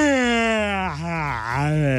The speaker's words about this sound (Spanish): Ay, perdón, pero es que es de esos bostezos que le salen a uno del alma.